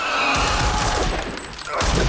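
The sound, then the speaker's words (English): Loud rifle gunfire in sharp, blasting bursts, with a rumbling tail between the shots. “grabs a rifle from the umbrella stand and shoots.”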